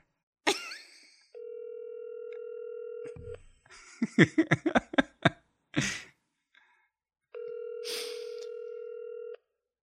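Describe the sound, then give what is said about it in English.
A telephone call rings through a handset as two long, steady electronic ring tones. A quick run of short, sharp clicks separates the two tones. “Let me call Kara”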